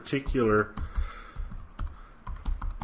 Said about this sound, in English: I'm just typing the link into the chat window